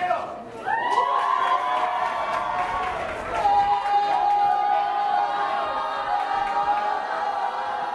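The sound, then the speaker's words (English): Rowdy cheering and shouting from summer camp children and staff welcoming visitors at lunch, a loud, sustained wall of overlapping voices that carries on without a break. “At lunch, Seeds of Peace campers and staff give their visitors a rowdy welcome.”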